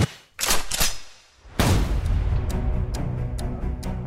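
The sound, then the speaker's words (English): Musket fire at Lexington as British troops meet the Minutemen militia: two sharp cracks, then a heavy blast, followed by a few scattered lighter shots over a lingering rumble. “shot was fired. Shots were fired.”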